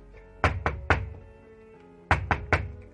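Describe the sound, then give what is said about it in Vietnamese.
Knocking on a door: two sets of three sharp raps separated by a pause of just over a second, crisp and fairly loud over a quiet background. “rốt cuộc vẫn là đưa tay lên gõ cửa”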